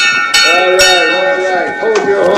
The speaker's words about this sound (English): He rings a nearby bell.